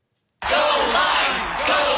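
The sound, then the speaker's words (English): Crowd cheering and yelling in a radio advert bursts in abruptly after a moment of silence, then holds as a loud, dense roar of whoops and shouts. “Everyone cheering for a fruit.”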